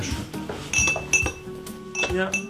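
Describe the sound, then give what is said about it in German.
Sugar cubes clink against glass and china while tea is served from two teapots: several short, bright clinks arrive at irregular intervals over a low, busy background. “Und hier ist Würfelzucker. Ist das so ein normales Geräusch? Genau, also damit fängt man eigentlich so fast schon den Tag an mit einem Tee oder mit einer Suppe.”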